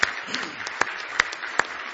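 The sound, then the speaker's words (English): A church audience applauds in praise, with sharp hand claps landing at a steady, regular beat over a softer bed of continuous clapping at moderate volume. “Give the Lord one more hand clap of praise tonight if you love him.”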